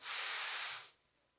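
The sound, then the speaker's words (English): An audience taking a deep breath in together on cue, heard as one sustained airy hiss lasting just under a second before it fades into quiet. “If you all would, when I indicate, take a deep breath. Are you ready? Breathe in.”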